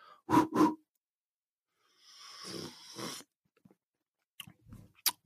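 Someone sips and tastes a drink from a cup, starting with two short throaty gulps. A longer airy slurp follows, then a few faint lip smacks and clicks, with no talking.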